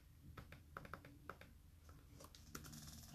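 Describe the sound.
Quick, faint clicks of typing on a computer keyboard as a search is entered: many light keystrokes in an uneven rhythm.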